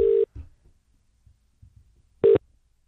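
Telephone call tones while dialing a business number: two short, loud, steady tone bursts about two seconds apart, with faint low thumps in between.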